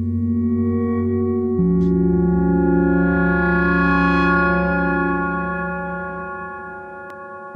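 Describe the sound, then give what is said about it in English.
A sustained droning chord from three Micromoog synthesizers in unison: nine oscillators tuned to different pitches, three on sawtooth and six on triangle waves, through low-pass filters. The steady buzzy tones shift once early on and then fade slightly toward the end. “This is 3 Micromax played in unison. 9 oscillators set to different pitches. 3 sawtooth waveforms, 6 triangular waveforms”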